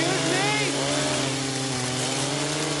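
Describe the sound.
A chainsaw cuts lumber beside a leafy campground, its engine droning as a loud, steady, buzzing whine without pause.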